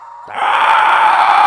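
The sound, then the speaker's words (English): A man's voice imitates a velociraptor call: a brief lower tone swells into a loud, shrill, rasping screech that is held steadily to the end. “Sir? Let me hear your velociraptor.”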